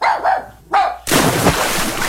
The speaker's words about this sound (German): Ein Hund im Schwimmbecken.